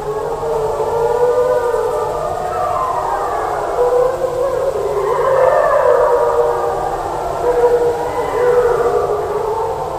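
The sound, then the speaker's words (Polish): Wolves giving their typical harmonic deterrent howl in the Białowieża Forest: several overlapping, sustained howls whose harmonic tones rise and fall for the whole stretch at steady moderate loudness. “Takie typowe dla wilków, harmoniczne wycie odstraszające.”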